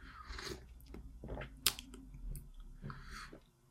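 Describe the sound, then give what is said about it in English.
Sips of coffee sweetened with local honey come as a few short, breathy slurps and mouth sounds, with one sharp click partway through and no talk. “I need to have a sip of my coffee. I'm doing the best I can here, folks.”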